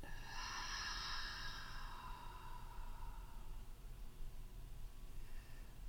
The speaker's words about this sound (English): And then bringing your breath gently up into your heart. And exhale out.